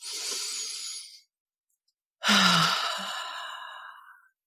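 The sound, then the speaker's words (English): A deep breath taken slowly, heard alone: a soft, breathy inhale, a pause of about a second, then a longer and louder sighing exhale that trails off. “I'm going to take a deep breath. Let's take a deep breath together.”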